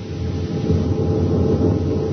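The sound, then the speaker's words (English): A weak main power generator at an atomic power plant on Mars gives a steady, low, rumbling drone with a grainy, noisy texture. It holds an even level throughout, with no other sounds. “Now, they're having trouble getting power, but I think I've found the trouble. Listen to this main power generator.”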